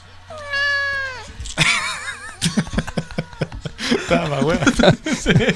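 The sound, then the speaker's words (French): A cat lets out one long, drawn-out meow with a wavering pitch, followed by people laughing and talking. “Oui, ben c'est un chat.”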